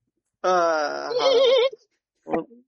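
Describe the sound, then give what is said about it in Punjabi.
A voice imitates a mare neighing: a long, wavering, whinny-like cry with a trembling pitch, then a short second burst after a brief pause. “ਘੋੜੀ ਹਿਣਕਦੀ ਹੈ, ਘੋੜੀ ਹਿਣਕਦੀ, ਹਾਂ ਖਾਲੀ ਘੋੜੀ ਹਿਣਕਦੀ”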